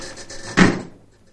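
A refrigerator door swings shut in a kitchen, giving one soft, muffled thump with a brief rattle that fades quickly, over a low steady hum.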